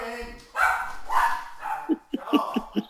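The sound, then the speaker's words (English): A dog barks in a quick run of short, sharp yaps near the end, after a stretch of a person talking. “My dog's barking and I'm going to let him out.”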